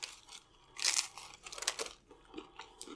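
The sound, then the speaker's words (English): Crunchy bite into a beef and cheese Supreme with no lettuce: one sharp, crackling crunch, then a few softer crunching chews that fade toward the end, with no voices. “I'm going to dig into one of these Supremes. I'm going to dig into the one that just has beef and cheese on it. No lettuce.”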